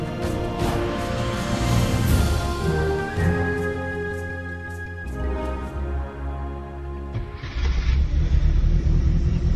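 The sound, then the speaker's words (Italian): Engine of a Fiat 500 Topolino, the small Italian car, runs with a low, rough, steady rumble that swells louder toward the end. “Questo rumore è il motore di una Fiat 500 Topolino, la celebre utilitaria con la quale molti italiani hanno attraversato l'Italia fino alla metà degli anni 50.”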